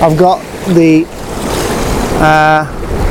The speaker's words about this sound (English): Okay, I'm on the rocks and the tide is most definitely coming in.